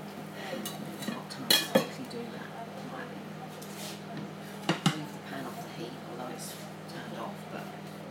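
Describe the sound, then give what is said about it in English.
A utensil stirs beans in a pan, giving a few faint clinks and scrapes against the metal over a steady low hum. “Give my beans a stir. Get them to burn. Stick to the bottom of the pan.”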